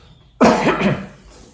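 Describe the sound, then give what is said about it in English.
A single throat clearing from a lecturer during a scripture class: a rough, gravelly burst that starts abruptly, holds for about half a second, then fades into near quiet. “Never supposed to repeat that clearing of the throat.”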